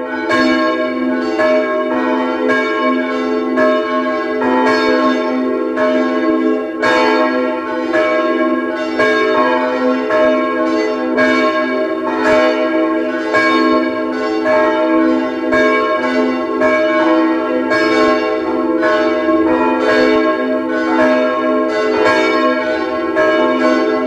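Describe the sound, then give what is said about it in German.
Bells of a Baroque-era parish church in Vienna's 16th district ring at noon, a full, continuous peal of many overlapping strokes with a steady rhythm. The loud, resonant tolling continues throughout, with no voices. “Es ist 12 Uhr. Sie hören die Glocken der Pfarrkirche Neulerchenfeld im 16. Wiener Gemeindebezirk.”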